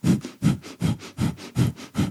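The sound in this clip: Rapid breath-of-fire breathing through the nose, about six forceful, evenly spaced exhalation bursts in quick succession. Each is a short, breathy huff that is moderately loud and stands alone with no talk.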